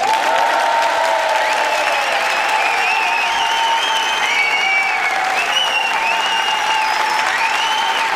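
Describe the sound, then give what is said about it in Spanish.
A large audience in a comedy hall applauds and cheers with loud, unbroken clapping, and higher cheering voices ride over it throughout. “Estamos en la sala de comedia con 155.000 personas que suenan así.”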